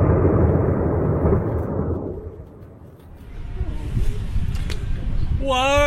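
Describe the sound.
Deep rumbling roar of a tower collapsing during a demolition blast, with towers being blown up. The rumble is loud at the start, then dies away, leaving a quieter lingering noise.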